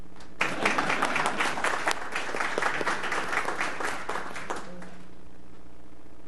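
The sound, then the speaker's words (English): Applause at an Atlanta city government meeting after fire rescue department deputy chiefs are introduced: about four seconds of dense, steady clapping that cuts off fairly suddenly, leaving a quiet low hum. “I don't know if they got a clap.”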